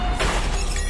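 A second car side mirror smashes against a parking pillar: a brief, loud crash with a shattering, breaking edge over a low rumble, then a quick fade.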